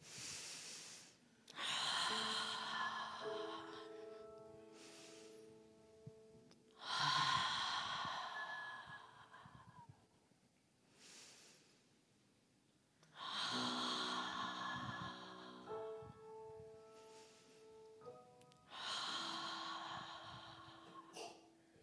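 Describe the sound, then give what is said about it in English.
Four forceful 'ha' breaths in a breathing exercise. Each is a long, breathy exhale with a faint voiced tone, separated by quiet pauses, and fairly soft overall. “And I want you to do 4 ha breaths and just breathe life into that picture.”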